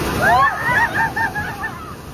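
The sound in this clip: Water splashes and sloshes as people wade into an ice-cold, strongly flowing river for a bath. The steady rushing and splashing stays at a moderate level, with voices audible over it.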